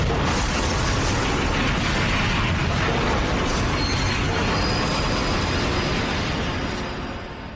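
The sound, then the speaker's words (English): A train crash of iron striking iron: a loud, continuous roar of screeching wheels and rumbling metal that holds steady throughout and eases slightly in the last second. “that sent them hurrying to London on that terrible train. Iron crashing into iron, wood splintering.”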